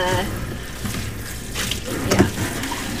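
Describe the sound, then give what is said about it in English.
Running water splashes as flower buckets are washed during floristry and farm work, a steady broad hiss with shifting splashes and a brief stronger gush near the end. “before you came, but it's gotta be done, so here we are. But yes, bucket washing is a very, it is part of doing floristry and farm work. It's an essential part of it.”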